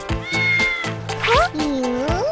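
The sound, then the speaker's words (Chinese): A beluga whale imitates a cat's meow: several drawn-out, cat-like meows in quick succession, with pitch bending up and down. “你会学猫叫。”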